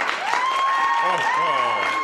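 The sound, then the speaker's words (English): A studio audience gives quick, short applause, an even patter of many hands that holds steady for the brief moment. “Wow, that was a quick and short applause.”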